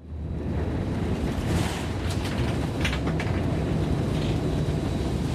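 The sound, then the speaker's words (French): A steady, dense roar of a large waterfall at Victoria Falls fills the whole stretch as a constant, unbroken rushing wash with no voices. “Ladies and gentlemen, welcome to Victoria Falls.”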